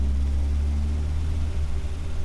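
Car engine rumbles as the car comes to a stop beside a low grey stone wall: a loud, steady, low drone with little change in level and no voices.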